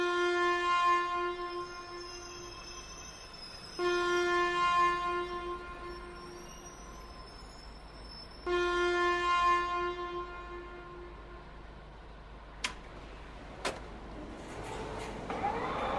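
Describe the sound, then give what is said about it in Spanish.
A departing train sounds its horn in sustained, harmonic blasts that swell at the start and twice more before fading. Two sharp metallic clanks follow, then a growing rumble as the train moves off. “Su atención, por favor. El Expreso Estación María anuncia su inminente partida”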